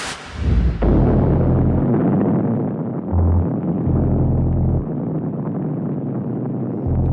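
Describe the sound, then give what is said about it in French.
Deep, loud roar of the shock wave from the first French atomic bomb test in the Algerian desert in 1960. It starts abruptly and continues throughout as broad rushing noise over a low throbbing hum. “Eh bien, il a fallu ce temps-là à l'onde de choc pour parvenir ici.”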